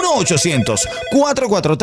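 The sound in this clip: Telephone ringing after a number is dialed, a bright repeating ring heard under steady speech through the short stretch.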